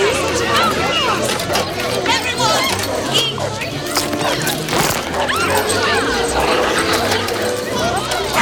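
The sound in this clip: Dog barking amid a chaotic scene with several dogs, sharp barks mixed into a busy jumble of movement, clatter and voices talking.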